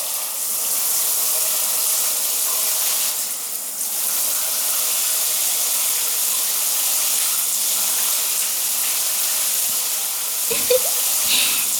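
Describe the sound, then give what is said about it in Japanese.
Warm shower water pours steadily as it rinses hair on the left side of a person's head, a continuous hiss of spray with no voices and only brief breaks near the end. “シャワーのお湯で頭をゆすいでいきますね。頭の左側をゆすぎますね。”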